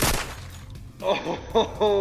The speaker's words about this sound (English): Go on, get that shot made.